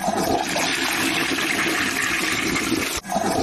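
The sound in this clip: A toilet flushes with a loud, continuous rush of water that dips sharply for a moment near the end, then surges back just as strong.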